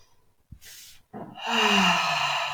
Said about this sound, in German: einmal ganz tief ein- und ausatmen